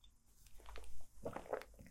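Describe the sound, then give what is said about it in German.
Faint sipping of a drink, a few soft slurping and swallowing noises clustered toward the end, low and muffled against a quiet background. “Und jetzt trinke ich erstmal wieder einen Schluck und du kannst kurz nachdenken.”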